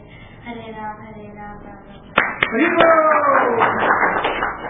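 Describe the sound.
Audience clapping along during a Hare Krishna chant: a sung line is heard first, then a few sharp hand claps give way to steadier clapping mixed with voices.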